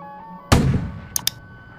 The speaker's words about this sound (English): Should we just fire the gun?